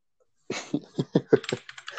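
Keys clack on a computer keyboard as a Google search is typed: silence, then a quick, uneven run of crisp keystrokes of varying loudness.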